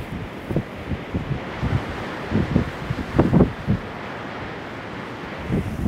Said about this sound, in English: I'm just going to step out again into the wind.